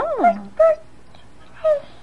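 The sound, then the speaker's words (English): Three short, high dog-like yips: the first is longer and drops in pitch, the next two are brief, with pauses between them. “Picks his dog up. And then he barks to his daddy.”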